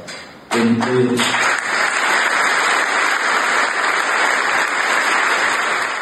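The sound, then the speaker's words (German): Applause from an audience, a dense, even wash of clapping that starts abruptly after a brief opening and holds at a steady, loud level to the end, with a faint tone running through it. “Großer Applaus zum Abschluss für Christian Horner.”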